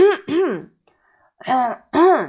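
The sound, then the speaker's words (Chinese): A voice imitates a throat being cleared for a stray pig in a children's story. It comes as two short, pitched, voiced bursts, then a pause, then two more bursts, each sounding like a gruff ahem. “流浪猪清了一下嗓子”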